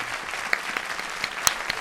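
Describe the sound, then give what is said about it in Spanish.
An audience applauds, with a dense, steady patter of many hands clapping, moderately loud and even throughout the short span. “Un aplauso para Paola de la Cruz”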